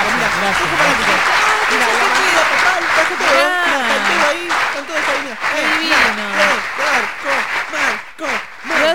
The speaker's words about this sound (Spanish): Tiene, mira, vamos a poner cómo lo aplaude la gente.